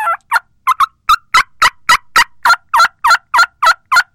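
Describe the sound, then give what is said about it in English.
A human mouth call imitates a wild turkey with a loud, aggressive run of yelps. Many sharp, evenly spaced calls follow one another quickly and stand alone against a quiet background. “So that was a mouth call. I like to use mouth calls because it doesn't show a lot of movement.”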